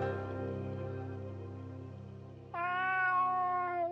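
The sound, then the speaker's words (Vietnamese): A cat meows once, a clear, drawn-out call that dips slightly in pitch at the end. It follows a low, steady humming tone, and the whole clip is fairly faint. “Tổ tiên mèo tinh lúc này mới nhào đến, kêu lên mấy tiếng.”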